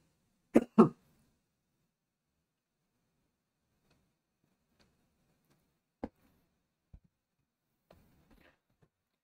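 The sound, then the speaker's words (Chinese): Two quick, sharp coughs from someone who has just choked, close together at the start, then near silence broken only by a few faint ticks and clicks. “我完全没有其他症状，好不好？我就是呛到，好不好？现在喉咙还很痒。”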